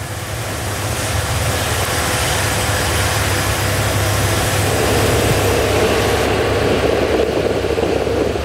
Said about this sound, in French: On a ouvert les gaz, hein, on a ouvert la poignée. Et on l'entend.